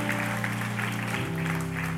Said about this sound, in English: Let's clap our hands and give God some praise for the word and the worship.